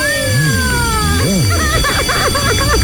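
A telephone rings with an incoming call, an electronic ringtone of warbling, sweeping tones followed by rapid trilling notes, loud and continuous over background noise.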